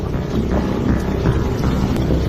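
Tugboat engine drones steadily as the boat moves slowly forward towing a sperm whale, a constant low rumble with wind noise buffeting across the whole stretch, no voices.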